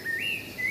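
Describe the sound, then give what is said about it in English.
A small bird chirps in a town square, giving two bright, high whistled notes that rise slightly in pitch, over a steady hiss of background noise. “it's a bird. It's a real bird.”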